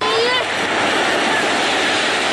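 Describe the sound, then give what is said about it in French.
Waves wash in steadily at Bata beach in Rufisque, a bathing spot, giving a dense, loud roar of surf that holds nearly constant throughout. “Nous sommes à la plage de Bata, l'un des 9 points de baignade qui existent à Rufisque.”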